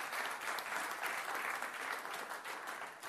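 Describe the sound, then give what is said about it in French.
An audience at a church service applauds loudly and steadily, a dense clapping that lasts the whole clip and eases slightly at the end. “Est-ce qu'on peut acclamer la parole de Dieu,”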